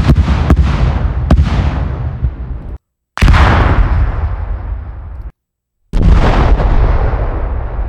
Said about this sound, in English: Tonstern Distant Explosions Library has a whole bunch of beautiful things in it. So we're going to add some of those guys to our library. Distant Explosions RAW sounds like this.